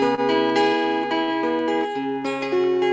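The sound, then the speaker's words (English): Mountain dulcimer, a folk instrument played while held up, plucking a string of bright, ringing notes that form a slow melody over sustained drone tones. The notes are clear and resonant, with many note changes across the passage. “It's called the Wink Mountain Dulcimer. You can see that the sound holes are all planets and moons. And it's a folk instrument.”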